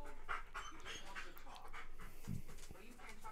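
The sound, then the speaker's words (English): A dog pants heavily, with rapid, rhythmic, breathy huffs that continue steadily throughout, faint and low in level. “Some very heavy breathing out of Onyx here, bud.”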